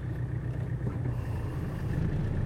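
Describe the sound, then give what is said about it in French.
A four-wheel-drive vehicle, running in four-wheel drive, rumbles steadily along a rainy island road on Fatu-Hiva in the Marquesas, a continuous low engine drone with no distinct events. “On a besoin des 4 roues motrices. Là, on voit qu'on est en 4 roues motrices.”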